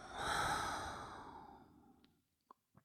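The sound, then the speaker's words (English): A long, deep breath is let out as a slow, breathy exhale that starts loud and gradually fades, followed by a couple of faint mouth clicks. “Let's take a full inhale and a full exhale.”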